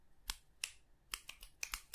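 Finger snapping in approval: several crisp, faint snaps, first a couple spaced apart, then a quicker uneven run of snaps.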